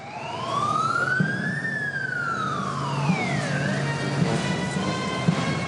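Fire engine siren as a crew leaves the station for a call: one long, loud wail that sweeps up in pitch, then slowly falls, over a steady low rumble.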